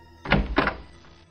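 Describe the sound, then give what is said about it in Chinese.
A door swings open with two dull, fairly loud thuds in quick succession, then a brief fading tail. “半夜时分，一扇门打开”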